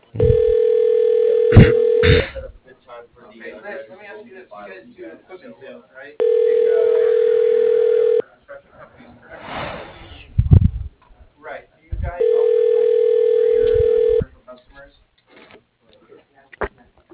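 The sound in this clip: Telephone ringback tone as a call is transferred to voicemail: three steady ring bursts of about two seconds each, evenly spaced by roughly four-second gaps holding quieter, muffled sounds.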